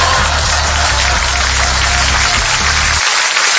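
Dense applause on a morning radio show: continuous clapping at an even, fairly loud level, with a low droning hum underneath that drops away shortly before the end.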